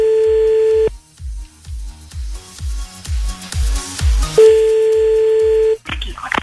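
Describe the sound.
A telephone line tone sounds while a prank caller redials. A steady electronic tone is followed by a run of low, rhythmic pulses, and then the steady tone returns before a brief burst of noise.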